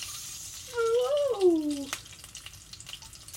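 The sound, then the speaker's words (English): Food frying in hot oil gives a faint, steady sizzle with soft crackles. A brief wavering whine-like tone rises and then falls over it near the start. “That burned really bad. It dropped in the oil. It bounced.”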